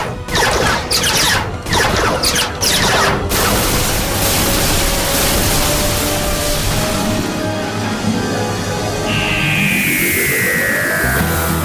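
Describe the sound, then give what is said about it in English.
Alien gunfire in a science-fiction audio drama: a few loud, sharp blasts fire off over a dense roar in the first few seconds. A sustained noisy rumble follows, with a swooping tone near the end. “Now they're shooting at us! Come on, there's got to be some way inside.”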